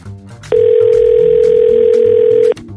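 A steady telephone dial tone as a call is placed. It is a single loud, even tone lasting about two seconds that starts and stops abruptly, with faint noise just before it.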